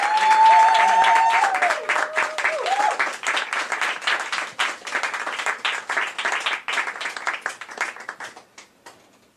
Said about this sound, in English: So everybody give it up. Let's welcome Catherine E.H. Robinson.